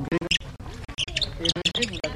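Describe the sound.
A human voice imitates a chaffinch's varied song with many quick, chirpy syllables in a rapid, uneven series.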